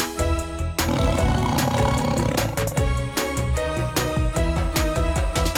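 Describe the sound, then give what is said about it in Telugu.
A tiger roars, the orange, black-striped big cat of the cat family, in deep sustained bursts over dense rhythmic layered sound with sharp accents. “Orange నలుపు చరలున్న పులి, పిల్లి జాతికి చెందినది ఇది.”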